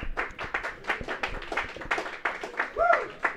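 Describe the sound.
An audience applauds comedians at a stand-up comedy show: quick, sharp clapping in an uneven patter, with a voice rising over the clapping near the end.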